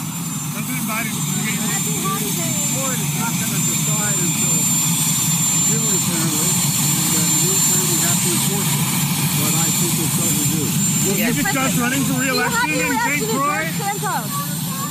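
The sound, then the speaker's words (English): A loud, steady jet engine roar runs unbroken for about fifteen seconds, while a voice delivers a speech underneath it, partly masked by the noise. “It's hard to hear him over the jet noise,”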